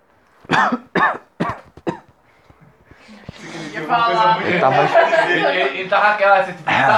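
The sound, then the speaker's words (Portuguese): Coughing and throat clearing from a man with an itchy throat: about four short, sharp, raspy bursts in quick succession, followed by steady talk from people in the room. “É que ele tava coçando muito a garganta, velho.”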